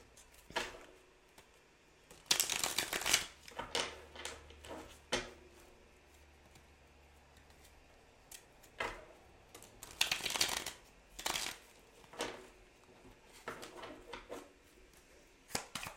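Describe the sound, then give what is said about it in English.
Tarot cards being shuffled before a single card is drawn: two louder bursts of riffling with scattered soft taps and clicks between them, mostly quiet. “All right. Can we get one tarot card, please? For Libra, in this new moon cycle.”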